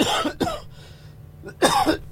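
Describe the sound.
Coughing from a person with a cold: a few harsh coughs come in two quick bursts separated by a short pause, with no talk.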